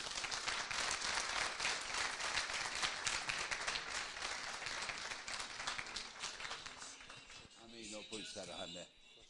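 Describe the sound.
Audience applause, dense and sustained clapping from many people that continues for several seconds before thinning out, after which a voice speaks briefly at the end.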